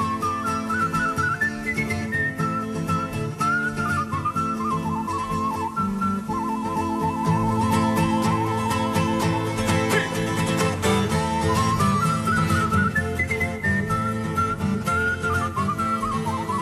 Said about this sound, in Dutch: Mooi zingen, maar ook mooi fluiten dus.